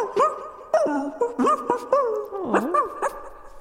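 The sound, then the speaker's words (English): Gibberish bark-like vocal sounds from animal characters in a video game: a quick string of chirpy, voiced syllables whose pitch bends up and down, moderately loud and with no other talk. “since all the characters are various animals, their gibberish barks are delightful.”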